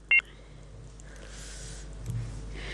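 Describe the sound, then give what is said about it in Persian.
A single sharp electronic beep sounds on a phone line as a caller's call drops. Faint hiss and a low steady hum follow. “متاسفانه بازم تماس برادر ما فکر کنم که قطع شد”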